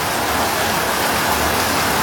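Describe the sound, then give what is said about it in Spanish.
Steady rain on a rainy afternoon, a loud, dense, even hiss that stays constant throughout, with no voices. “Esto es algo muy bonito, una tarde lluviosa.”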